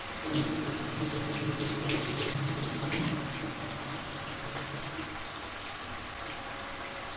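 Water runs from a tap into a sink as something is rinsed under the stream while cooking. The hiss is steady, a little louder for the first few seconds, then settles to an even, softer flow.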